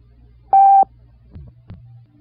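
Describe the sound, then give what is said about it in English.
A single steady beep from a telephone time-of-day service, lasting about a third of a second, followed by a couple of faint low clicks over a quiet hum. “At the tone, the time will be 11, 21. Exactly.”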